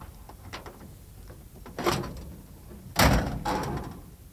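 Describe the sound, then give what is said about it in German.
Metal clunks and a louder thump as the bonnet of a stalled Studebaker with a jammed gearbox is opened, starting with faint scattered knocks and building to two heavier bangs near the end, with no voices. “Wollen Sie mal die Haube aufmachen?”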